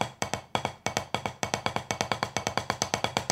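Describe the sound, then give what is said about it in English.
An uneven drum double stroke roll in which the two hands sound different: quick strokes clearly bunched into pairs with uneven spacing and loudness, so the roll lurches in sets of two rather than flowing smoothly. “as you play your double stroke roll, you don't want it to sound like this.”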